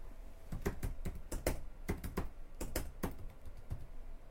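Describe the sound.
Rapid typing of a search on a computer keyboard, with many irregular, crisp key clicks in quick bursts and short pauses between them.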